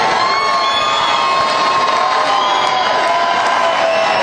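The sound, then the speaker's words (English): Crowd cheering at a B-52s concert in the Wildhorse Saloon, Nashville: a loud, steady roar of many voices with scattered whoops and shouts that carries on without a break. “And listen to the crowd.”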